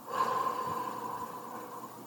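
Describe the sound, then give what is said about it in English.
A long, airy breath drawn through the nose and let out again, soft and steady for about two seconds with no talking. “Through your nose, breathe in, I. Breathe out, matter.”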